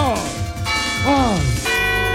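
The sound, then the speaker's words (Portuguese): A small catechism bell rings with two strikes, each leaving bright, sustained metallic tones that ring on beneath a voice. “Deixa eu até tocar o sininho da catequese.”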